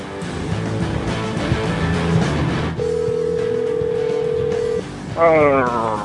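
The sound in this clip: Ringing on an outgoing telephone call: a single long, steady ring tone lasting about two seconds, rising out of a busy, noisy background and then cutting off.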